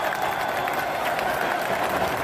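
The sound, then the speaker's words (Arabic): Moroccan fans applaud at Prince Moulay Hassan stadium in Rabat after the final whistle of the Morocco–Brazil match: a steady wash of crowd clapping and noise, even in level throughout, with indistinct voices in the mix. “تصفيقات الجماهير المغربية في ملعب الأمير مولاي الحسن في العاصمة الرباط بعد صافرة نهاية مباراة المغرب ضد البرازيل”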